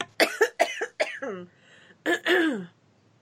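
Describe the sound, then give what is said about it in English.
A person coughs: a quick run of short, sharp bursts, then after a pause a longer, rougher burst. “But anyhow, I have to cough, sorry.”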